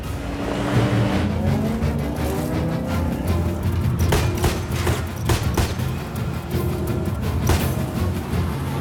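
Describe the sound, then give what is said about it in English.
A Jeep's engine roaring under hard acceleration in a car chase, a loud continuous drone with tire noise and several sharp bangs cutting through. “Flying rounds, Brian manages to stay focused on driving. He floors the accelerator.”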